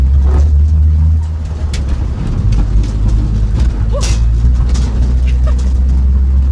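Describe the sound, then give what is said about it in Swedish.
A folkrace car engine accelerates as it leaves a gravel course for an asphalt track. It makes a loud, continuous low rumble that holds steady throughout. “Nu får jag på från grusbanan på en asfalterad bana. Ska se om jag vågar gasa på lite grann här.”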